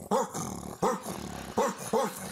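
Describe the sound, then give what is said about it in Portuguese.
A man's voice imitates a Rottweiler, producing four gruff bark-like bursts in an uneven rhythm, each trailing into a low rumbling growl. “E vamos terminar com o Rottweiler. O Rottweiler usa as mãos. É mais elaborado.”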